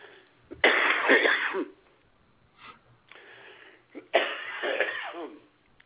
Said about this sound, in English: excuse me, I swallowed a mosquito up here near Kitchee Lake.